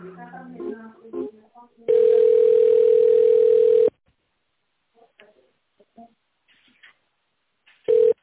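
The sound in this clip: Ringback tone of a telephone call being connected: a steady, level, mid-pitched tone lasting about two seconds, then a quiet gap, then the same tone starting again. Brief talk comes before the first tone.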